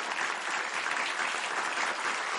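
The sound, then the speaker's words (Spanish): Seated audience in rows of chairs applauding a cellist, a fairly faint, even patter of many hands clapping that stays steady throughout. “Frente a la artista, el público aplaude sentado en varias filas de sillas.”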